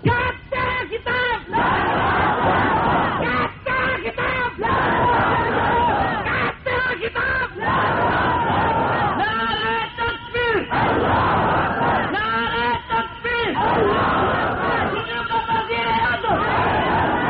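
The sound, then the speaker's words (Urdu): A large crowd chants slogans in loud, rhythmic bursts that recur every few seconds, many voices rising together in short repeated phrases over continuous roaring crowd noise. “تم نے اگر سوئے سوئے نعرے لگانے نا تو پھر چھوڑ دے، کوئی کسی اور کو دے”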